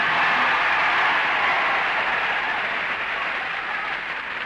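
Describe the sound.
An audience applauds after a soprano's performance on a TV talent show, its reaction measured by a clap-a-meter. The clapping is dense and loud and holds steady for the whole stretch, with no voices over it.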